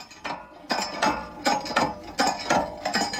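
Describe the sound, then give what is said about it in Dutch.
Rhythmic clanking and creaking of a hand water pump being worked on a schoolyard to draw water for chickens, with many loud, evenly spaced strokes repeating steadily and no voices. “Wat zijn jullie aan het doen? Water pompen. Waarvoor? Voor de kippen.”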